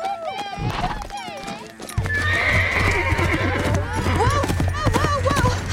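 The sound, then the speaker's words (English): Hooves of a horse trotting in a training arena under a rider beat steadily and loudly, with a few high whinnies early on before a denser, continuous run of hoofbeats. “Amberly rides Power slowly around the training arena. Power begins to trot.”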